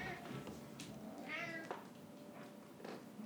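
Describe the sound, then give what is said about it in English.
A cat meows softly, with one clear meow amid a few fainter calls, all quiet and without talk. “what are you meowing at?”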